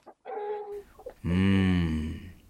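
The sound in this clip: Hens clucking while being fed on a farm, with short clucks followed by a loud, drawn-out squawking call that rings clearly over a quiet background.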